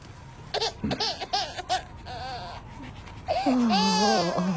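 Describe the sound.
An infant crying: a few short whimpering, babbling bursts give way to a loud, sustained wavering wail near the end.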